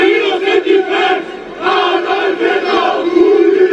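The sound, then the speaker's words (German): Far-right crowd of neo-Nazis and football hooligans marching through Chemnitz in summer 2018, chanting loudly in rhythmic, shouted bursts with short breaks between phrases and no clear single voice. “So klang es, als im Sommer 2018 nach dem tödlichen Messerangriff in Chemnitz Rechte, Neonazis und Fußballhooligans durch die Stadt zogen und es zu rassistischen Übergriffen kam.”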